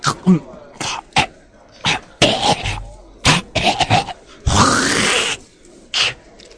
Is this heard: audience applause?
no